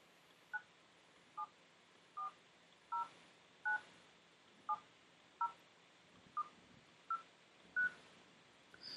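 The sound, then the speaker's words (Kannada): Phone keypad tones sound while a phone number is typed in, a quiet, evenly spaced series of short dual-pitched beeps, one per keypress, with no speech. “ನನ್ನ phone number ಇಲ್ಲಿ type ಮಾಡ್ತೀನಿ ಒಂದು ನಿಮಿಷ.”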